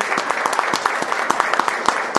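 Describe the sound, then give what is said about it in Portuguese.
A big round of applause given in solidarity for a woman, with dense, continuous clapping and sharp individual claps that stand out at an even, fairly loud level. “Uma grande salva de palmas.”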